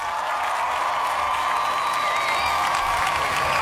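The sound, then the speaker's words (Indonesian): Applause and crowd noise rise as a steady, dense wash of clapping with a bright cheering edge. It holds at an even, fairly loud level throughout with no pauses. “Yaudah, kita kasih tepuk tangan nih buat 75% ini ya.”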